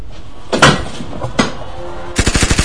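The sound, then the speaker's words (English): A semi-autonomous advanced home defense turret fires: two single loud bangs spaced apart, then a fast, rapid burst of repeated shots like machine-gun fire. “What is that? It's a semi-autonomous advanced home defense turret”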